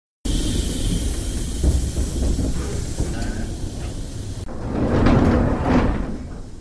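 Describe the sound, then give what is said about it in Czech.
Steam hiss and heavy rumble as a replica legion train hauled by a steam locomotive arrives at the platform of Žižkov freight station, steady and loud, then a swelling hiss and sliding clatter as the carriage doors open. “Netrpělivě vyhlížený legiovlak, tažený parní lokomotivou, přijel k nástupišti nákladového nádraží Žižkov. Otevřely se dveře”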